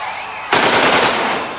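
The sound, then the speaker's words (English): Gunfire from a gun shooting at ninjas: a short moment, then a loud, sustained burst of rapid shots that merges into one harsh, continuous rattle. “Like bullets are flying all over the place!”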